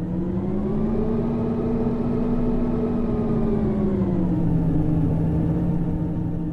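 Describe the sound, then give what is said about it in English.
Engineered pedestrian warning sound of a hybrid car accelerating: a continuous synthetic whir with layered tonal harmonics that shifts gently in pitch, loud and unbroken throughout. “Well, let's listen to some of that sound that would be emitted from these speakers. This is a recording, I think, of the hybrid accelerating.”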